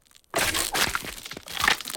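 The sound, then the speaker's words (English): Ice cracks around an acorn pushed into frozen ground in an animated scene. A sharp onset leads into a dense run of crackling, crunching bursts that carries on without a pause. “It moves into the ground and the ice around it starts to crack.”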